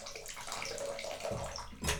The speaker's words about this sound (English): And now the bathtub's getting a little full, so we can turn the water off